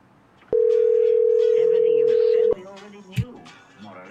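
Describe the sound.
Single steady electronic tone on a phone line, a flat, loud beep held for about two seconds, followed by people talking.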